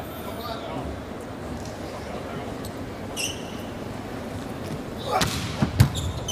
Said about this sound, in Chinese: 看看王斌的发球